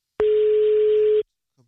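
Ringing tone on a telephone call to someone: a single steady, pure, mid-pitched beep lasting about one second, loud and clean, followed by silence.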